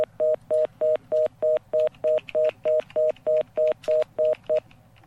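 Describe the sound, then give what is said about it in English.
A steady run of many short electronic beeps, each at the same mid pitch and evenly spaced, sounding alone over a faint background hum before stopping abruptly. “And I can hear some beeping there now.”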